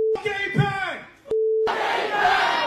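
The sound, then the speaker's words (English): A rally crowd cheers and shouts in a short, loud roar. Before it come a shouted voice and steady electronic beep tones. “Make some noise for Brad Lander! Make some noise for Claire Valdez! And let me hear you say,”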